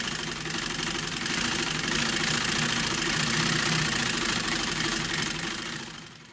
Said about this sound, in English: That's the hum of a Singer sewing machine.